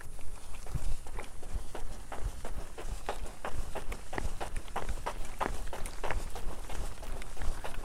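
Running footsteps recorded on a new microphone, a fast, steady rhythm of many evenly spaced footfalls throughout, with no talking.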